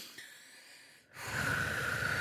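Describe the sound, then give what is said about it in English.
A deep calming breath, taken during a childbirth-style breathing exercise, opens on a faint, quiet stretch. After a short break it becomes a loud, breathy rush that holds steady to the end. “Just take a breath. Take a breath. All right. Like that.”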